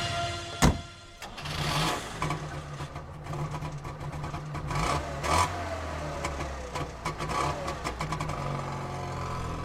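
A Trabant car drives off, its engine droning steadily with a few louder revving surges and a sharp knock near the start. The mid-pitched engine noise carries on throughout, with no voices.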